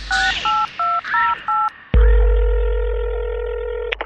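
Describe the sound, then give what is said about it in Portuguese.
Telephone keypad tones dialing a taxi: five short two-tone beeps in quick succession, then a click and a long steady tone that slowly fades, ending with another faint click. “Rádio Táxi, boa noite. Liguei para o táxi, vai para a tua casa.”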